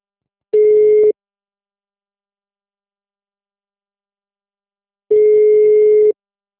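A telephone ringing tone sounds as two steady, even-pitched beeps, the first short and the second about a second long, with a long silence between them.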